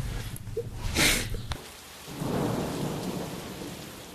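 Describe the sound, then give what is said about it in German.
Rain falling steadily with thunder. A rumbling roll swells early on, and a broader, lower rumble builds in the second half over a constant hiss of rain. “So, da regnet's.”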